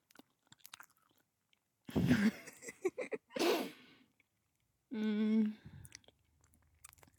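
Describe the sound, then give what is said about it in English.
Soft biting and chewing on a large milk chocolate bar, heard as a few faint crunches and moist mouth sounds in otherwise quiet surroundings. “I'm going to take a bite. Do we like eating sounds? Are eating sounds gross?”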